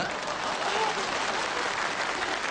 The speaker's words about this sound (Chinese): 你以为大伙这是给我鼓掌的？ 那没错， 这是给你鼓掌的。